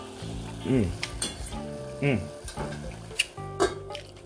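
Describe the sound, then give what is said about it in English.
Food frying and being stirred in a pan while dinner is cooked at home. A steady sizzle runs under a voice, with a few brief clinks from the pan. “I'm trying to cook a little din-din.”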